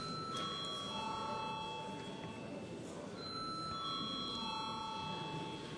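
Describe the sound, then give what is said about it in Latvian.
A bell rings in a parliament chamber to call members to a vote. The faint ringing tones hold steady and shift between a few pitches, running continuously over a low background hum. “Paldies, lūdzu zvanu.”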